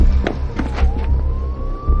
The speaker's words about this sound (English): A police car pulls up.